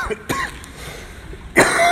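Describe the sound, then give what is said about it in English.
Coughing from a speaker with a cough at the start of a church sermon: a short cough, then a louder, rough, drawn-out cough with throat clearing at the end. “I'm afraid I've got a little bit of a cough today.”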